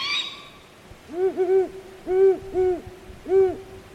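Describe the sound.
Owl calls at night around 11 p.m., a juvenile owl calling and an adult female answering. A brief high-pitched screech opens, then deep, rounded hoots follow in short uneven groups over a quiet background hiss.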